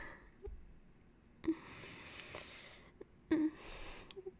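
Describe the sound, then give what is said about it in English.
Heavy breathing from someone pausing to catch their breath, two long, airy breaths that each open with a sharp onset, with quieter breath sounds around them. “I just have to be still for a moment and catch my breath.”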